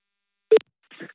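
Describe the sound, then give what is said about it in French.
Telephone ringing tone of an outgoing call: a single short, loud beep, then a softer, noisy burst after a brief gap. “On va l'appeler. Appel, attention.”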